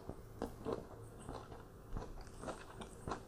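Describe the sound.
Crisp bites crunch into an apple, a few short crackly snaps spaced unevenly, fairly faint, with no talking.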